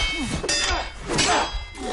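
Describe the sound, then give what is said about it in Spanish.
Metallic clangs of an axe clashing against a katana in a fight, a few sharp ringing hits and scrapes amid loud action noise. “el cosaco lanza un golpe brutal con su hacha. Pero Águila Roja lo detiene y pelean hacha contra katana.”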